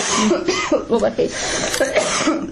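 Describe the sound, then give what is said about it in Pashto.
A person sick with a cold-season illness coughs, with short rough coughs and throat clearing mixed in among talking. “ټوخېږم”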